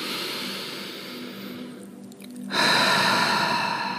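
A slow, deep inhalation during a guided breathing and relaxation exercise: a soft, airy hiss that swells and then fades over a couple of seconds, followed by a steadier, broad rush of noise.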